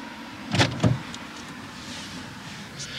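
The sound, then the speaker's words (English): A car on the drive from Los Angeles to Santa Barbara gives a steady low cabin hum, broken near the start by two brief mechanical bursts. “So I pick up Natalie and we set out to drive from Los Angeles to Santa Barbara.”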